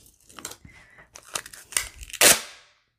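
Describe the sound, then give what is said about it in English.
Strong Tyvek tape is torn in short crackling, crinkling bursts that build to one loud, sharp rip near the end, then fade quickly; no one speaks. “But I'm going to use this Tyvek tape because it's really strong.”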